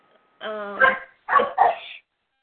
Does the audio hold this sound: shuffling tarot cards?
no